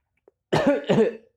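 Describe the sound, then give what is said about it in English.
Two harsh, rough coughs in quick succession, loud and alone, preceded by a tiny click. “sorry, I'm coughing”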